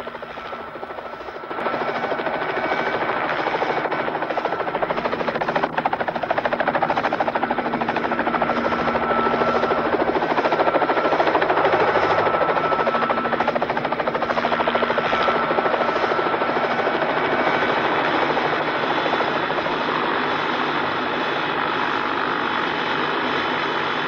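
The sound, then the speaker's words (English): Helicopter noise as an upside-down helicopter is lowered onto its still-rotating blades and its body spins until it stops. A loud, steady rotor and engine drone fills the whole clip, stepping up slightly after the first couple of seconds. “The helicopter is still upside down and is lowered slowly onto its rotating blades, causing the body to spin around till it comes to a rest.”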